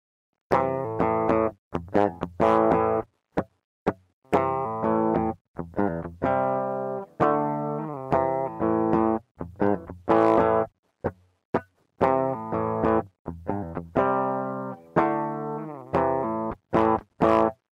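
Electric guitar rock riff recorded dry through a direct DI input, with no amp tone. Short, punchy chugged notes and chords are separated by brief gaps in a stop-start rhythm. The playing is loud and steady throughout, with no voices.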